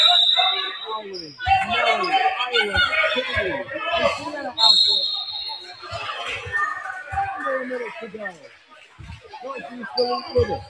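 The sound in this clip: Basketball dribbled on a court during a game, its dull thumps repeating in an uneven rhythm beneath a steady stream of play-by-play commentary, with faint squeaks and crowd murmur in the background.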